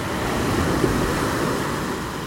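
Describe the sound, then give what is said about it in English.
Ocean waves wash in at Kanaha Beach on a calm day, a steady, even roar of surf with no clear breaks between the waves. “I'm at the ocean, Kanaha Beach, and it's very peaceful here today.”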